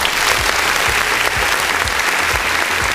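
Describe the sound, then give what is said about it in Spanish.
A group applauds guests with dense, steady, loud clapping that lasts the whole three seconds without a break. “Un aplauso de inmediato para ustedes.”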